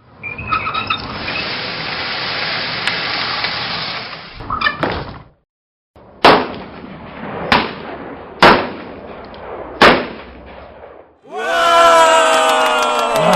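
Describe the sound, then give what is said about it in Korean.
Sharp pistol shots ring out as a general fires at a raised shooting target: a few loud, evenly spaced bangs with short decays, after a stretch of steady hiss. “다들 쏘았는데 마지막으로 사격 솜씨를 좀 보여주십시오. 그럴까? 좋아, 표적을 올리라.”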